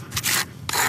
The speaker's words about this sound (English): using a plastic snow scraper on the rough base of a polished granite monument